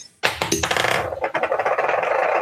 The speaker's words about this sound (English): Can you roll a D12 for me?